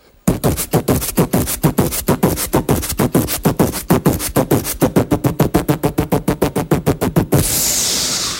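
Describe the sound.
A voice imitates a beatbox kick drum with the mouth, firing many short, punchy low bursts in a fast, steady rhythm. The run ends in a sustained breathy hiss.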